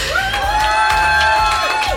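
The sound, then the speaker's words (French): A crowd cheering wildly at a radio show: loud, continuous shouting and whoops, with a sustained, high, whistle-like cry running through the noise. “Le public est toujours en folie face à moi.”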